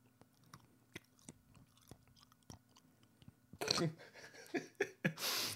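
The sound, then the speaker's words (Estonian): Chewing on a lozenge: faint, irregular wet clicks and small crunches, followed by a stretch of louder, denser mouth noises toward the end. “närid nätsu või? ei näri. mul oli loseng, ma nüüd närin”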